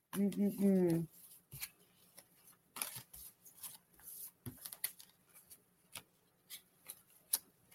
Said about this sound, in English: As I get these cards back in order.